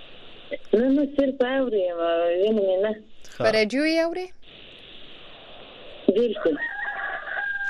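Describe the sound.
Roosters crow outdoors among chickens, giving a few long, strained harmonic calls that rise and fall in pitch, with a person speaking as well.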